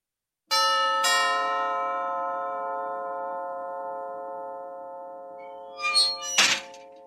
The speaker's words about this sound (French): Vous êtes prêts, les gars ? Je sonne.